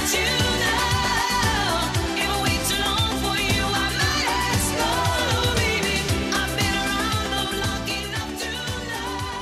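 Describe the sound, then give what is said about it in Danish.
The chorus of an original disco song plays, with sung vocals over a steady, driving beat and a full band. It stays loud throughout and eases slightly toward the end. “Nu har jeg et stykke omkvæd fra den originale, og den lyder sådan her.”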